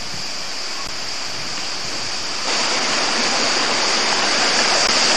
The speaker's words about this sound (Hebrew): מים, מים, מים. פתאום באמצע השממה. זה הנחל האיפן הראשון שאנחנו רואים.